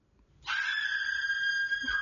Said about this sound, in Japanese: 女性のキャー が入るとちょっと恐怖感増しますけれども